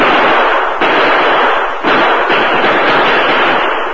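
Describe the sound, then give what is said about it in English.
A loud exchange of gunfire in a shootout among boulders and trees, a dense, continuous crackling roar of shots with a few sharper bursts breaking through. “After an exchange of shots, there was silence.”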